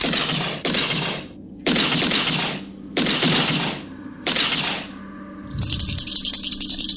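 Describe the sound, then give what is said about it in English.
Video game gunfire as a player shoots at the floor: several loud bursts of rapid shots separated by short gaps, ending in a faster, sharper rattling burst. “Sounds like you're shooting at the floor, you said?”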